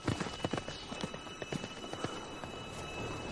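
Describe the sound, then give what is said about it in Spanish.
Horse hooves clatter during a medieval combat on a sand arena as a squire's horse rears and throws its rider: rapid, uneven clip-clop strikes with several sharp hits over a steady noisy background. “El caballo del escudero se encabrita tirando al jinete.”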